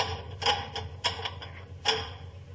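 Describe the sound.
Bars on a locked door being drawn back: a few sharp, dry metallic clacks and ticks at an uneven pace, with a low hum underneath and no voices.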